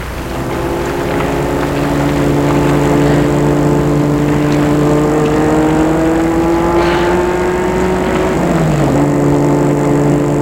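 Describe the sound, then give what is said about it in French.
A black Rolls-Royce car's engine gives a loud, steady, harmonic drone that holds one pitch before dipping slightly near the end. “Et là, tout à coup, vient vers eux une Rolls d'une roue transversale, une belle Rolls noire.”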